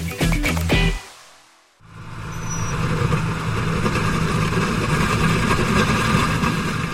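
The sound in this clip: A tractor drags a disc harrow through rocky, crushed-limestone soil in South Florida: a brief loud engine burst cuts off sharply, then a dense, steady grinding and scraping roar swells in over a low engine hum and continues.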